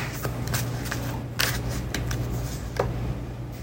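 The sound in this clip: Tarot cards are shuffled and drawn, soft papery riffles and rubs punctuated by a few sharp flicks and snaps over a low, steady hum.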